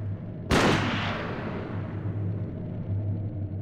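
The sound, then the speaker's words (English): A single loud gunshot cracks out sharply, followed by a long rumbling decay that fades into a steady low hum. “Then, in front of Janice's two children, he shot Geraldine as she cowered on the floor.”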